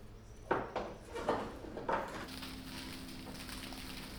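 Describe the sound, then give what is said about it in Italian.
Freshly baked bread crackling in a bakery in Boiano: a few soft, brief rustling bursts in quick succession, then a low steady hum. “Questo, invece, è il suono dello sfrigolio del pane appena sfornato.”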